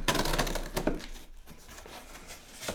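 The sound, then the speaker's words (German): Rustling and crinkling come from a DHL packing-set parcel being unpacked. Crisp bursts of wrapping noise come early, then quieter scattered rustles follow. “Es wird ausgepackt. Wir haben es hier mit einem ganz klassischen Packset zu tun von der DHL.”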